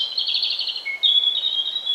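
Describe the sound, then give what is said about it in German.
A European robin singing in a city forest: a high, thin warbling phrase breaks off briefly, then resumes as clear, sustained whistled notes, heard alone. “Das war das Rotkehlchen.”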